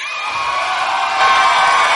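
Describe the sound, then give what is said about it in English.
A live audience in Chicago gives a standing ovation, a loud, continuous roar of cheering, shouts and whoops that swells further after the first second. “Oh, a standing ovation already.”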